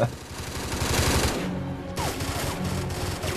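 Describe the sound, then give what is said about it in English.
A short burst of automatic gunfire from a weapon with a 50-round magazine, a loud, rapid rattle of shots followed by more sporadic firing. “Short round burst, Rodney. 50 mag clip”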